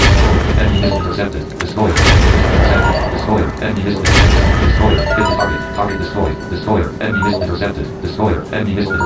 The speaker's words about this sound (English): Web Destroyer 5. Most powerful missile.